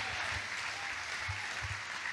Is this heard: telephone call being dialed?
no